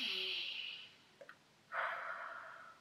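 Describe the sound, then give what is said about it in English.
Deep breathing demonstrated as a calming exercise: a slow, airy inhale through the nose, a brief pause with a couple of small clicks, then a long, soft exhale through the mouth, heard alone. “So you can start by inhaling through the nose and exhaling through the mouth. So it goes something like this.”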